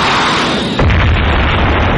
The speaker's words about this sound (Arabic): الكل يضرب في وقت واحد. ألو قيادة، ألو قيادة، تم تدمير 7 دبابات للعدو